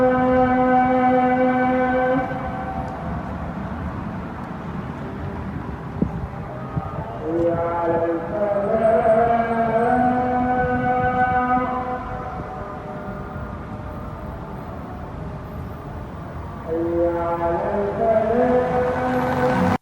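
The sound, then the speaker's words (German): A muezzin's call to prayer, sung five times a day, rises in long, sustained melodic phrases. Three phrases are separated by pauses, over a steady low rumble of street traffic. “Dann ruft der Muezzin fünfmal am Tag zum Gebet und das hört sich so an.”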